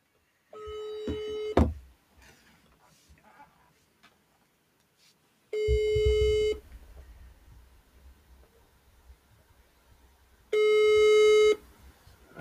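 Ringback tone of an outgoing telephone call: three steady, loud tones of about a second each, spaced roughly five seconds apart, with faint low noise in between.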